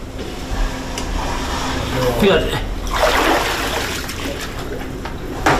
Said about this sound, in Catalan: Aquest so d'aigua era el so de l'aigua que entrava a la casa.